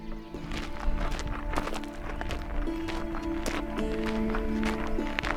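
Footsteps walking through a forest in the Harz mountains: many steady, crunching steps in a continuous rhythm, with no voices.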